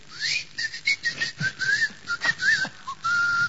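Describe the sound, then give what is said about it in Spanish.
Human whistling, a rapid run of many short, bright notes with quick upward slides and warbles, fairly loud and heard alone without talk. “Y pega un chiflido”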